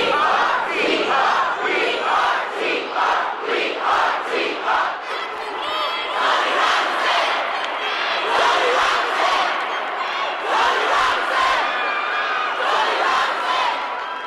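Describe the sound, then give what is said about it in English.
About 1,500 protesters, mostly students who walked out of school, chant inside the Capitol, their massed voices loud and rhythmic in repeated shouted phrases that continue without a break. “protesters, many or most of them students who had walked out of school. And it was as loud as it had been easily since the 2011 protests. Give it a quick listen here.”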